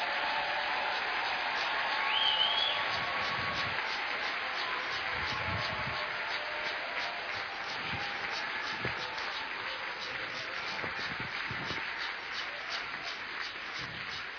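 An audience applauds during a church service in praise of the Lord. The clapping is faint, steady and sustained, with a dull, muted tone and a slight swell near the start.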